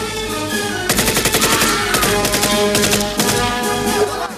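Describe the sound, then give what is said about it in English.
Machine-gun fire in a film firefight between guards, turret gunners and fighters near a hut: loud, rapid bursts of many shots come in several clusters over a constant roaring background. “Rambo leaps out of the hut and joins Ko, who fires on Tay. As the Russians and Tay's guards scramble, Ko shoots a turret gunner as Rambo fells a guard.”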